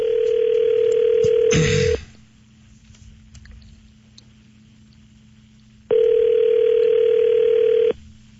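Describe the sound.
Telephone line tones as a call is placed: two steady, loud electronic buzzing tones of about two seconds each, separated by a roughly four-second quiet gap, with a short rustling clatter near the end of the first tone.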